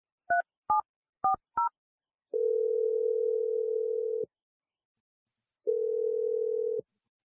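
Touch-tone phone dialing: four short key beeps in quick succession, then two long steady ringing tones separated by a pause, clear and alone with no talk.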